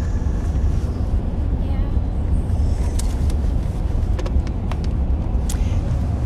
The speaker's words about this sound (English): So, I have my husband who's driving. And as I mentioned before, we are recording this episode on the road.